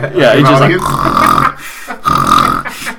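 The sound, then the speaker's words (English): A voice imitating a man snoring during a movie in a cinema: two long, rasping, throaty snores separated by a short pause, loud and close. “So during the movie, you can audibly hear a guy snoring. Like, he's just like,”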